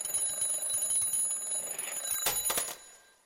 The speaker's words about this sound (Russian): Я проснулся от резкого звука старенького будильника.